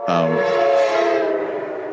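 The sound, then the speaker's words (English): Train horn sounding a sustained, harmonic blast that holds for about two seconds, with a rumbling undertone beneath it. “Love that train. Interrupts your train of thought, doesn't it?”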